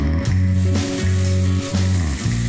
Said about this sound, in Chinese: 炭火上的肉串滋滋作响